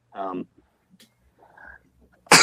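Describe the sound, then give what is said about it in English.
A man sneezes in one loud, noisy burst at the end, after a brief voiced sound and quiet gaps. “That was a pure masculine sneeze.”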